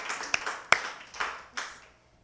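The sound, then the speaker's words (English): A few scattered audience claps at a comedy show, a handful of separate, sharp hand claps spaced unevenly, each ringing briefly before the last fades into quiet. “Yeah, you can clap for him if you care to.”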